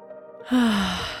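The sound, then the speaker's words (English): A single deep breath drawn in and let out as a soft, audible sigh, starting after a brief quiet moment and fading gradually. “Let's take a breath.”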